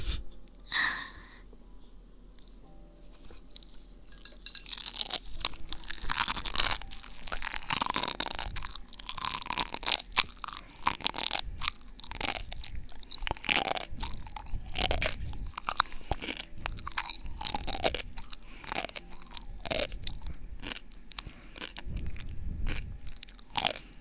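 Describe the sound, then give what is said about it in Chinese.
Someone chews and crunches a very salty food, giving many faint, crisp bites and wet chewing sounds in an uneven rhythm that runs the whole time with no talk. “真的一点点都不好吃，但是为了你们呢，我决定把它吃完。真的一点不好吃，太咸了。”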